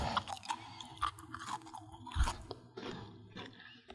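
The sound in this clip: Chewing a chocolate cookie with soft, sweet dough and slightly melted chocolate: repeated moist, crunchy bites and mashing, in irregular bursts with no talk.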